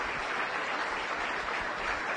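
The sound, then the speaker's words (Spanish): Applause from an audience at a seminar event: dense, steady clapping that fills the whole clip at an even level, with no talk over it. “Así es que un aplauso para todos, todos ustedes”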